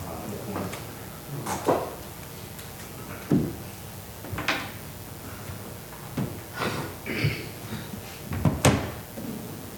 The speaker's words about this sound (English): Well, I just had my Bible marked with my finger and I just closed it.